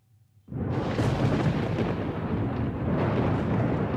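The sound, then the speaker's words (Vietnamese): Thunder shakes a forest: a brief quiet gives way to a sudden loud onset, then deep, heavy rumbling rolls on steadily to the end. “Cùng lúc đó một tia chớp lóe sáng, tiếng sấm rung động cả khu rừng”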